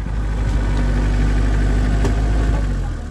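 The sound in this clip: A geared car's engine runs in a continuous low, rumbling drone with steady vibration, holding an even level throughout with no voices.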